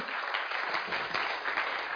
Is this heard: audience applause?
yes